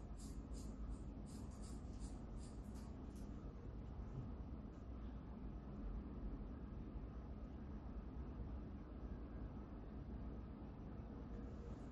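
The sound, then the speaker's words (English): Drawing a picture by hand: a soft, continuous scratching and scraping of a drawing tool that runs steadily and quietly throughout, with a few brighter, crisper strokes near the start. “This one, I'll just draw it like this because, and it's not really how it looked, but I'll just do this to say, for the sake of the image.”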